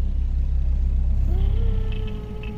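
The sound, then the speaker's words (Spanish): A car approaches a house: a heavy, steady engine rumble with a rising whine entering partway through, the rumble easing slightly toward the end. “Un coche se acercaba a la casa. Podía oírlo y esperaba que fuera el de la policía.”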